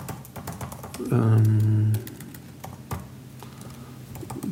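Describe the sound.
Typing on a laptop keyboard while notes are written down, a scattered run of many light key clicks, overlapped for a moment by a voice.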